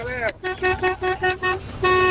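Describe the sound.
A horn or vuvuzela honks amid cheering for Spain, a string of short, buzzy toots at a steady pitch followed by a longer held blast.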